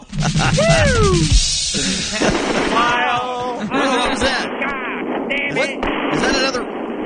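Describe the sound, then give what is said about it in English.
Rockets exploding on launch pads, a run of heavy booming blasts and rumble, with voices talking over them. “We got a problem on all of them. All of the launch pads. Damn it, they keep blowing up.”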